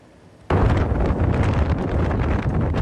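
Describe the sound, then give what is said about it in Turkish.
Strong wind strikes Istanbul during a storm that raised a dust cloud and tore roofs loose. A sudden onset of loud, roaring, buffeting noise continues steadily to the end. “Önce toz bulutu gökyüzünü kapladı. Ardından kuvvetli rüzgar etkisini gösterdi.”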